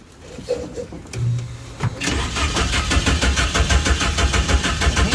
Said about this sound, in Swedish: Du, är det någon som kan starta Doris så vi får höra lite grann hur hon låter?